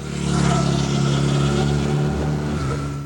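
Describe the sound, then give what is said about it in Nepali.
A Hero Xpulse 200 dual-purpose motorcycle with an 18.4 hp engine runs in a loud, steady, throaty drone that holds at an even pitch for about three seconds. “Hero expert अफरोड एडभेन्चरमा रमाउनेको पहिलो रोचाइको bike जसमा छ 18.4 HP engine dual purpose tyre र rear मोनोसक प्रविधि hero XPulse 200”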